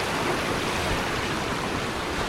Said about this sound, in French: Et les vagues qui viennent se fracasser.